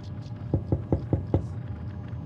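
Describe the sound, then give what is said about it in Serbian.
Five evenly spaced knocks on a door, sharp and fairly loud, rapping out a steady rhythm over a low background hum. “Bibi bope, gde si? Ja je pokucaj na vrat.”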